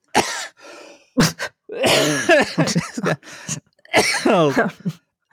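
A cough from a dry throat comes as a few short, harsh bursts mixed with throat clearing and vocal noises, loud and alone.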